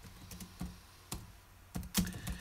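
Slow typing on a computer keyboard: a handful of distinct, sparse key clicks spaced irregularly, fairly quiet and alone with no talking.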